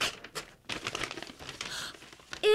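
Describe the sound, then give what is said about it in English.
Paper crinkles and tears as an envelope is opened: soft, scratchy rustling in uneven bursts, fairly faint throughout, with a slightly louder crackle at the end. “open this envelope”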